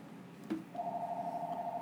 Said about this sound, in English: Is that a house phone ringing? What the fuck is that?